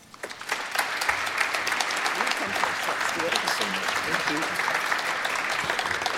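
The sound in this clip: Steady applause from an audience welcoming a local Ontario MPP at an OMDC creative-industries event. Dense clapping rises quickly and holds for about six seconds, with some voices mixed in.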